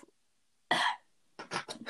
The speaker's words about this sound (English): No, I actually had to cough. I'm sorry.